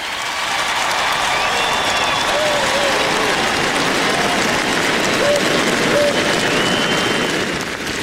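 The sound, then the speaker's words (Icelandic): A crowd applauds and cheers as royals step onto the balcony of the royal palace: dense, continuous clapping that holds steady and loud for the whole stretch, with no break. “Marit drottning, Ingiríður Alexandra krónprinsessa og Sverri Magnús prins út á svalir konungshallarinnar og var fagnað ákaft, en mestu fagnaðalætin heyrðust þegar Sonja drottning kom út á svalir.”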